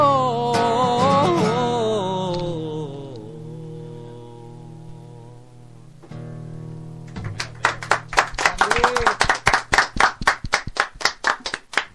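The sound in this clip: Clapping follows a sung melody and a lingering held tone: many sharp, separate hand claps come in a fairly regular rhythm, loud and alone at the end.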